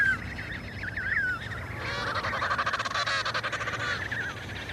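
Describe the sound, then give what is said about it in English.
Penguin chicks and adults calling in a colony: at first a few separate nasal, honking cries, then many overlapping calls in a dense, pulsing chorus, fairly loud throughout. “In a flurry, the other chicks dash to an adult penguin and escape back to the colony.”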